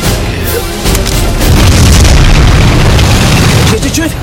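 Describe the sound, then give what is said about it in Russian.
An anti-tank rifle fires at a tank in a war film battle scene: a loud, deep booming blast that swells into a heavy, sustained rumble and dense noise. “Выстрел из противотанкового ружья с нашим лейтенантом.”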